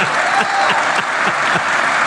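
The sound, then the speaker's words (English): Audience applause after a joke: dense, loud clapping that holds steady for the whole short stretch, with no talking over it. “I guess they're applauding at the punchline, right? That was a joke, right?”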